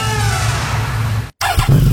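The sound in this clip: Motorcycle engine revving, a loud, steady, rough roar that cuts out for a moment and then returns with a harsher, busier tone.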